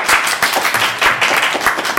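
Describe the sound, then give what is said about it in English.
Brief applause welcoming three guests at a live event, a short burst of clapping with a loosely pulsing rhythm of louder swells, sustained across the whole clip without voices. “Let's give a big round of applause for our three mystery guests today.”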